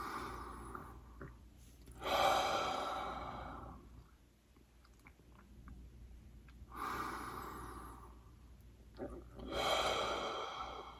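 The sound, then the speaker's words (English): Deep cleansing breaths during a guided relaxation: three slow, airy breaths, each a long soft rush of air that swells and fades, separated by quiet pauses. “So, with a couple more cleansing breaths, just acknowledging what might have been showing up for you”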